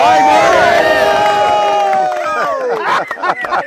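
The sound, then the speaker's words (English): A live audience cheers and whoops loudly, with many shouting voices blended into a dense, sustained roar that thins into scattered shouts and bursts of noise near the end. “it's a very special episode We've got a live audience.”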